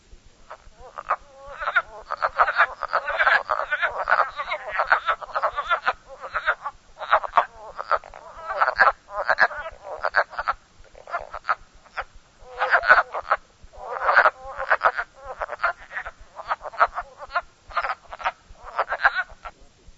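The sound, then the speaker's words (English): Wood frogs call in a chorus of many short, clucking, duck-like croaks, coming in dense uneven bursts with brief pauses throughout, fairly loud over a quiet background. “Wood Frog.”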